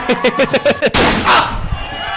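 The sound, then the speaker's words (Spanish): Gunshots ring out in a shootout scene. A rapid run of short, evenly spaced pops is followed by a louder, sharper blast and several more ragged bursts that fade into a noisy tail. “¡Asegúrate! ¡Muchos tiros!”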